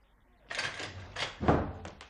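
A door is opened in a radio drama, heard as a few soft, muffled clunks and rattles, fairly faint, with the strongest knock about two-thirds of the way through.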